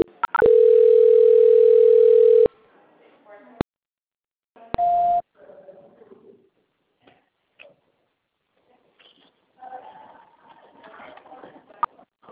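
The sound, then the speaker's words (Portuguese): A telephone call-transfer tone sounds on the line as one steady, flat beep lasting about two seconds, followed later by a shorter, higher beep, then quiet line noise with faint scattered sounds. “aguarda na linha só um minutinho, por gentileza, que eu vou transferir a ligação”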